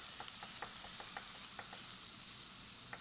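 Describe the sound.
Food frying in a pan on a stove with the heat turned up high, a faint, steady hiss of sizzling with light scattered crackles and taps running throughout.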